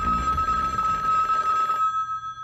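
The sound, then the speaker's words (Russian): A telephone ringing late in the evening: a steady, piercing high ring over broad rushing noise. The noise cuts off near the end while the ring carries on faintly. “Однажды поздно вечером раздался телефонный звонок.”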